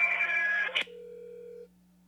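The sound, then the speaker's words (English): Electronic tones of a prison phone call connecting: a bright buzzing tone, a sharp click, then a steady mid-pitched tone for about a second over a low constant hum before the line goes quiet. “Her mom has a phone call. I kind of want to play it.”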